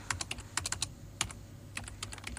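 Computer keyboard typing as someone enters an ID number on a website: many quick, irregular keystrokes, light and fairly faint, with no voices over them.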